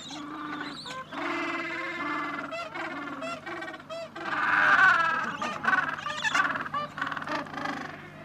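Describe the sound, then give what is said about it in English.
Gentoo penguin parents and their hungry chicks calling, with many loud, overlapping honking and braying cries that run continuously and swell in the middle. “These are Gentoo penguins, and they're very funny penguins. So what you're hearing now is the parents, but you're also hearing the chicks who are very hungry and they want to be fed by their parents.”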